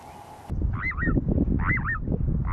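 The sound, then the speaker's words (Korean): Bird calls from little ringed plovers at a nesting site where several pairs are breeding. Two short bursts of wavering, warbling notes sound over a loud, steady low rumble. “지금 한 쌍만 있는 게 아니라 한두 쌍이 또 다른 새 꼬마물떼 소리가 또 같이 나고 있는 것 같아요.”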